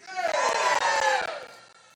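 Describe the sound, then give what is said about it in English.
An audience shouts together on cue in one loud, sustained collective cry that swells quickly and then fades out over about a second and a half. “Now, that's the kind of shout I'm looking for. Okay? So here we go. On the count of 3, I want to shout.”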